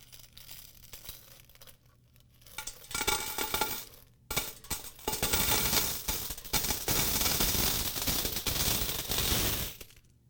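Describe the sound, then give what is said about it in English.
Coins drop into a metal container, making a long, loud, dense clatter and rattle of many coins that builds after a quieter start and goes on with no voices. “if you've got a metal container and you have coins,”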